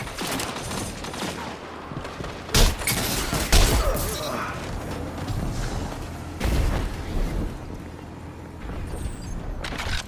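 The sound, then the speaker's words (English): A grenade explosion and gunfire in a police video game: a few sharp, heavy booms stand out above a continuous noisy bed of firing and mechanical clatter. “Watch out. There's a grenade in there.”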